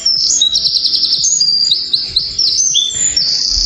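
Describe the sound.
A wren singing alone: a loud, rapid, continuous run of high, sharp trills and chirps, with only brief dips in loudness.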